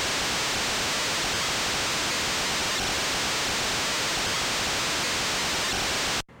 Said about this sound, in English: That is a 6-second noise clip that I got from FamiTracker.